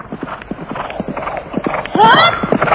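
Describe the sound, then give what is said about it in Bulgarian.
Hooves of returning horses clip-clopping in a steady, busy rhythm of many beats, with a loud, high whinny breaking out near the end. “Внимавай, конете се връщат.”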